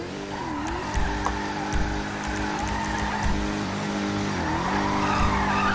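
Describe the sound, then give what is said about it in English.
A Charger drifts in a video game, its engine droning steadily beneath a continuous tire squeal whose pitch wavers as the car slides, with a few faint clicks above. “whoever's drifting in this charger in front of me”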